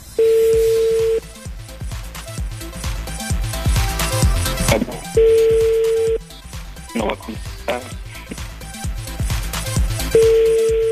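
Ringback tone of a telephone call going unanswered: three steady, mid-pitched rings, each about a second long and spaced about five seconds apart, with busy background sound between them.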